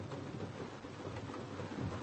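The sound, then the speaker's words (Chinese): Rain falling on an outing, a faint, steady hiss of drops with an even, continuous texture and no voices. “这怎么也没想到今天下雨啊？”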